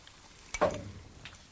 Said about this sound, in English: now that we've been frying our ginger and our garlic, we go in with our spices.